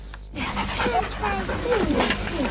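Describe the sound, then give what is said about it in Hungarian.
Dogs awaiting new owners at an animal-welfare association's World Animal Day event in Pécel pant busily and let out high, wavering whimpers and yips, almost continuously over the short stretch. “Gazdára váró kutyusok Pécelen. Az Állatok Világnapja alkalmából tartott rendezvényen a helyi állatbarát egyesület fogadta az állatbarátokat.”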